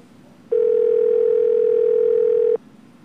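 A phone call's ringing tone: one steady, mid-pitched electronic tone that holds evenly for about two seconds and then cuts off cleanly, with no voices.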